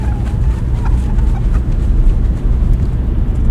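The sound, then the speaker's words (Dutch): A car drives on a long road trip through France toward Portugal, giving a steady low drone of engine and road noise with a faint wind rush and no voices. “Ik rij ons naar Portugal.”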